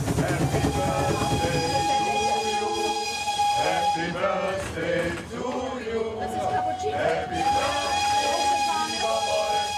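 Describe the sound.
A narrow-gauge train runs with a cheerful group aboard a wagon, a steady rolling rumble and rail noise throughout, with voices chatting over it.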